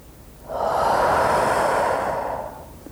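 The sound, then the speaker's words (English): One long, deep breath during a guided calming exercise, a steady airy rush that swells and then fades over about two seconds, heard alone with no talk. “Let's do this together now. Breathe in love.”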